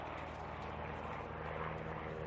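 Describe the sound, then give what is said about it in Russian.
Light airplane flying over a steppe slope, heard as a faint, steady propeller drone with a low, even hum and no breaks. “Описав дугу, над склоном пролетает легкий самолет.”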